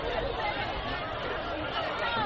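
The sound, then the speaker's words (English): Crowd chatter fills the stands at a high school football game, Dunbar at Meadowdale, at Welcome Stadium. It is a dense, steady babble of many voices that holds an even loudness throughout. “Good crowd on both sides here tonight at Welcome Stadium.”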